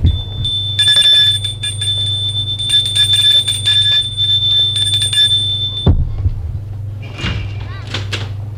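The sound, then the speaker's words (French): Doorbell ringing at a neighbouring villa beside a burned-out house: a shrill electric ring in several bursts over about five seconds above a low hum, then a dull thud and a brief vocal sound. “Et il va sonner à la villa d'à côté.”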